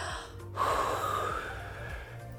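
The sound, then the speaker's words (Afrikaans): A breath blown against a hand held in front of the mouth: one soft, airy puff lasting under a second, fairly faint and without speech. “Vinnig, neem gou jou hand en sit dit voor jou mond. En dan blaas jy daarteen.”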